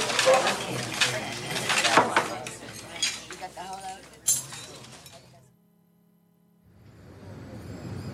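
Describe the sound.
Cutlery clinks against plates and dishes as people eat a meal: many light, irregular metallic chinks under ongoing conversation, fading to near silence before a low murmur returns.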